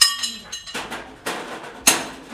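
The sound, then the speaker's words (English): Metal clanks as over-torqued bolts are worked loose: a few sharp, bright knocks at uneven intervals, each fading quickly into quiet, with no talk. “There's this, all these bolts and NASA done over-torqued, and I'm just trying to get them”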